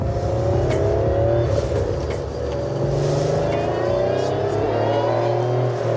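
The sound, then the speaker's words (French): A Porsche sports car engine revs in a sustained, rasping drone that holds fairly steady in loudness, with a gritty mechanical edge and no voices. “Le son que vous entendez là, c'est un peu comme si on faisait tourner un moteur de Porsche avec une scie circulaire en même temps, le tout dans une boîte de conserve.”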